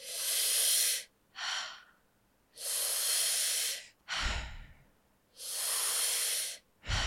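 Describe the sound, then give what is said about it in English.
Deep belly breathing runs in and out without pausing: three long hissing inhales, each followed by a shorter, rougher exhale, in an even rhythm at a fairly soft level. “Trying to bring the breath deep into your belly, up into your chest, and then just letting it fall out. So it sounds a little bit like this.”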